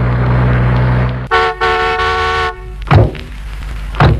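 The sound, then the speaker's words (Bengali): A car arrives and honks its horn. A rumbling approach gives way to a short toot, then a longer sustained blast, followed by two dull thuds. “ওই তো গাড়ির শব্দ প্রায় এলো দেখছি আমি”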